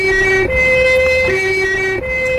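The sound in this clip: A loud ambulance siren sounds alone in a two-tone wail, alternating steadily between a higher and a lower pitch over a low rumble.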